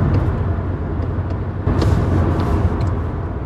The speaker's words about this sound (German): Jetzt sind wir auf dem Weg nach Verdun. Fahren durch die Champagne.